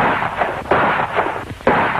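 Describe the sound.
Gunshots crack through a dense, rumbling wash of noise. Two sharp, loud bangs stand out from the steady roar.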